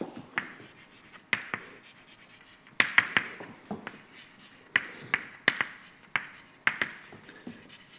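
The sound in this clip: Writing on a board during a lecture on continuum mechanics, as a derivative is written out. Many short, crisp strokes and taps come in irregular bursts, with faint squeaks on some strokes.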